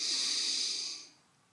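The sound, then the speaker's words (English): A single deep breath drawn in during a guided breathing exercise: a steady, airy hiss that holds for about a second, then fades quickly into quiet. “I invite you to take another deep breath in with me.”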